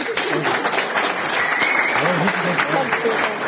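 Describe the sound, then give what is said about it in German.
Audience applause, dense and steady clapping that holds at an even, fairly loud level throughout. “Applaus.”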